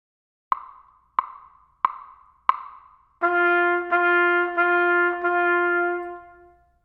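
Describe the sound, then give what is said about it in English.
Musical quarter notes in 4/4 time after a one-measure count-off: four sharp, evenly spaced clicks, then four connected tones on one steady pitch, each restruck in an even pulse, before a fade. “Quarter notes sound like this.”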